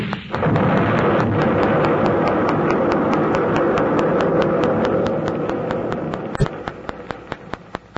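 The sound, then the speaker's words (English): Nitroglycerin set off by a gunshot explodes at a well in a huge, roaring rumble that swells abruptly and fades slowly over several seconds, with a run of sharp ticks as it dies away. “Dollar, your shot, he exploded the nitro.”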